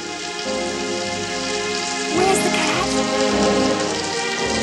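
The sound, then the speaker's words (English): Steady rain falling in a city alleyway, a dense continuous hiss of drops spattering on surfaces, with sustained low tones running beneath and no voices. “Rain streams down her face, mingling with her tears.”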